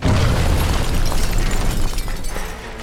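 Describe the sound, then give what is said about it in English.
Dynamite bomb, wired to a wind-up clock and detonator, exploding outside a Los Angeles newspaper building: a loud, sustained roaring blast with crackling debris noise that fades toward the end. “The dynamite was connected to a wind up clock and a detonator. That night at 107, the bomb outside the LA Times building exploded.”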